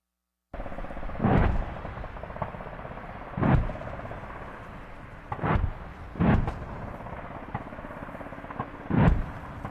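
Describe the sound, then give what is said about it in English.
Heavy booming blasts from a military live-fire exercise near Townsville, Queensland, Australia, part of training with Australian, American and Japanese forces. About five loud reports land at irregular intervals, each rolling off into a low rumble. “That's the sound of a live fire exercise taking place near Townsville in Queensland,”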